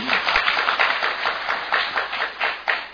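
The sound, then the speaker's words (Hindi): A class applauds a student with a steady, rapid run of hand claps that keeps a fairly even rhythm and holds at a consistent level throughout. “इनके लिए ताली बजाओ,”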